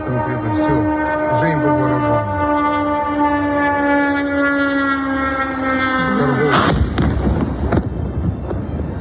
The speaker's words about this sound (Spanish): Es el registro sonoro de la ciudad de Kiev, hace solo unas horas. Rusia acaba de llevar a cabo uno de los mayores ataques sobre Ucrania desde que comenzó la invasión.